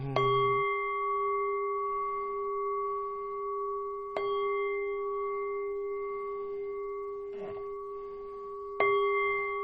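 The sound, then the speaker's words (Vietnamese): A Buddhist temple bell is struck three times at slow, even intervals. Each stroke rings out as a bright, steady tone that hangs on and sustains between strikes. “nghe chuông nhớ Phật dứt luân hồi.”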